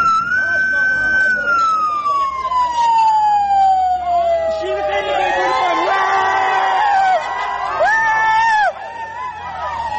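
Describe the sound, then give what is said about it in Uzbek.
A police car of the Internal Affairs department, surrounded by dozens of people in Urgut district, sounds a loud siren whose wail slides steadily downward, and a crowd shouts and whoops over it in the later part. “Tasvirlarda o'nlab odam qurshab olgan IIB mashinasining qattiq signal berayotgani, so'ngra mashinaning katta tezlikda haydab ketilgani hamda odamlarning xursandchilik bilan baqirgani eshitiladi.”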